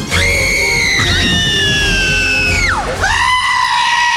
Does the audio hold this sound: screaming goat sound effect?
yes